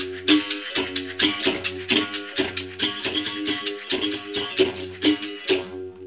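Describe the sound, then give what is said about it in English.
A berimbau, the traditional Afro-Brazilian musical bow, is played in a steady, fast rhythm. Its many twangy struck notes shift between a lower and a higher pitch, with no voices. “You brought a berimbau with you. Can you give us a quick demonstration?”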